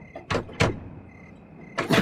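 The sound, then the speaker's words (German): Knocking and rattling at a sturdy, locked door as someone tries to open it: a few sharp, loud bursts separated by quiet pauses, over a faint steady background hum. “Haben Sie versucht, die Tür zu öffnen? Ja, sie ist verschlossen.”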